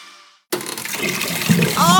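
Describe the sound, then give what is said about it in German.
Water overflowing in a sink and toilet bursts in loudly after a brief silence, then keeps rushing steadily with bubbling gurgles building toward the end. “Oh, Waschbecken, Toilette, alles voll bis oben hin.”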